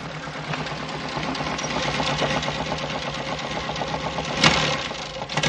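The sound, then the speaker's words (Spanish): A car engine runs steadily in a city street in heavy snow, giving a continuous rattling, knocking drone of even loudness with no voices. “En otro momento, Alfredo avanza en un coche por la ciudad. Está nevando con fuerza. Ahí está el coche.”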